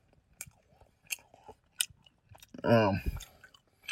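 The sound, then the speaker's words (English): A bite into a three-year-old expired Milky Way candy bar, then slow chewing. A few sharp, sticky clicks of biting and chewing come first, followed by a brief voiced murmur from the eater. “3-year-old expired candy bar. I'm halfway down it. I got two bites in. I'm going to take a third bite.”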